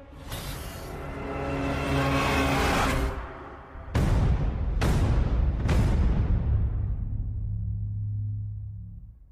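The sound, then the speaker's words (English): Soundtrack from the film trailer for Tenet: a swelling roar cuts off sharply, then three heavy booming hits ring out over a sustained low drone that slowly fades. “So that was the trailer for Tenet.”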